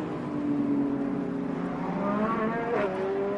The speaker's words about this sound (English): Oh, that Lamborghini as it accelerates down from the top of the roller coaster.